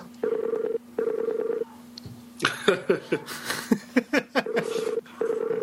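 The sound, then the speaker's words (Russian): Ringing tone of an outgoing telephone call: short, even, mid-pitched tone bursts repeat at a steady on-off rhythm, broken midway by a busier stretch of other sounds before the tones resume. “А он, блин, на работе, наверное, зря я ему звоню.”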